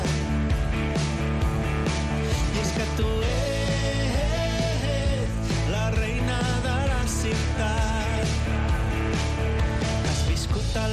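A song from a guitarist-composer's fourth album. Dense, continuous band music plays at an even, full loudness throughout, with no talking.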